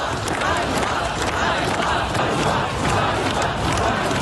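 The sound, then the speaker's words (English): Protesters in Kyiv shouting together over the sacking of the defence minister. Many voices merge into a dense, steady roar of crowd noise that holds at an even level throughout. “Now to Ukraine, where protesters are gathering in the capital Kyiv and other cities around the country after the surprise sacking of the country's popular defence minister.”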